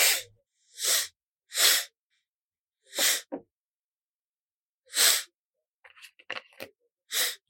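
A man breathes through his nose into a microphone in six short, breathy puffs separated by silences, with a few small clicks near the end.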